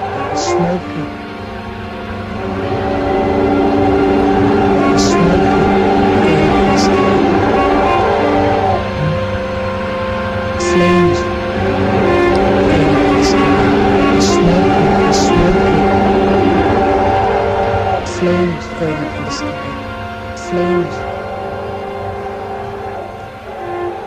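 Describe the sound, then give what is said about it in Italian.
A train arriving at a station: a loud, sustained rumble and rattle of rolling carriages with tonal horn blasts sounding over it. “Arrivano alla stazione e le fanno discendere.”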